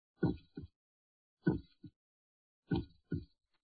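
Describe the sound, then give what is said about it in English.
A human heart beats in three paired lub-dub thumps, low and soft, evenly spaced with short silences between each pair. “This is the sound of a human heart, the pump that circulates living blood through your body.”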